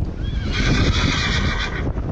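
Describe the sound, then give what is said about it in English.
A horse whinnies loudly among clattering hooves while horses are being evacuated from a wildfire near Flagstaff into travel trailers. The drawn-out neigh holds for over a second above the shuffling hoofbeats. “Hundreds of people have been evacuated, as have a number of horses that were moved into travel trailers for a trip to safer stables.”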